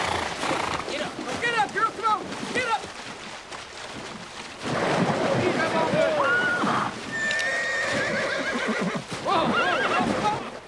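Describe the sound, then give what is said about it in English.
Horses whinny and neigh in panic while swimming a deep, fast-flowing river with riders on their backs, several shrill, wavering calls breaking out over a constant churning wash. “The colt struggles in the deep, fast-flowing water as the Yankees move to the center of the river. Other horses start to panic as they swim, riders still on their backs.”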